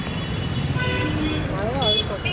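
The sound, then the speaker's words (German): Congested Mumbai street traffic with trucks, rickshaws and motorcycles: a dense, steady roar of engines and road noise, broken by a few wavering horn toots, with voices mixed into the din. “Das verstopfte Mumbai krankt an einem dauerhaften Verkehrsinfarkt. Auf den Straßen ringen Lastwagen, Rikschas, Handkarren, Kühe, Fuhrwerke, Motorräder und Passanten um jeden Quadratzentimeter Asphalt.”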